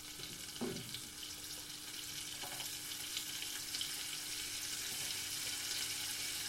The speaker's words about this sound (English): So what I'm going to do now is throw in my onion and my garlic.